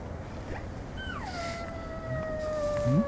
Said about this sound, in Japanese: ウグイス鳴いてるよ。ウグイス、ねえ、ウグイス聞こえる？